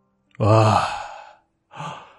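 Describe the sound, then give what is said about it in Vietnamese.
A long voiced yawn while stretching, early in the morning on opening a shop, swells loudly and then trails off, followed by a shorter, softer breathy exhale. “vươn vai ngáp dài.”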